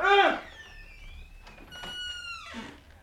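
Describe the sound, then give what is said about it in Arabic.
A door creaking open into a ruler's chamber: drawn, squealing tones that glide downward, after a brief voice at the start. “وفتح الباب وتخطى الحجاب”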